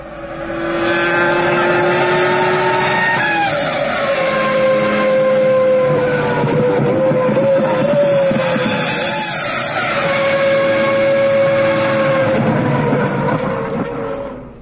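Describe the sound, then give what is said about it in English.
A car engine revs through a series of downshifts: a loud, sustained harmonic drone whose pitch steps and slides downward several times, heard alone without talk. “Counting the downshifts.”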